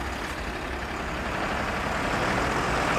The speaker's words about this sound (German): Der Truck fährt weg.